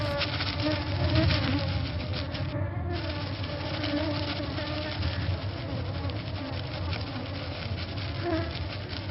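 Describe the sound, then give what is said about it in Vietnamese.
Dense buzzing of a swarm of dark, dragonfly-like flying insects circling around plants, a loud, steady drone that runs unbroken from start to finish. “có vô vàn những con gì đó màu đen, trông tựa như chuồn chuồn nhưng không có mắt, bay lượn vòng quanh những đám thực vật cứ như mây đen đang ồn ồn di”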